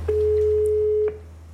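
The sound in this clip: A telephone ringback tone heard while a call is being placed: one steady, mid-pitched tone holds for about a second over a low electrical hum, then cuts off, leaving only the hum.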